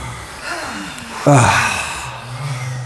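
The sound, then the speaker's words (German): A deep breath drawn in and let out during a guided breathing exercise. The audible airflow swells sharply partway through, then tails off slowly. No talking. “Tief ein und wieder ausatmen.”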